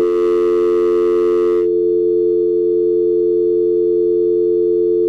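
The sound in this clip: Telephone line tones while a call is being dialed: a steady, continuous electronic tone holds for the whole stretch, with a burst of extra noise layered over it at the start.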